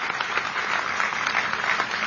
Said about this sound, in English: really, one more big round of applause for the national anthem. That was a fantastic performance today.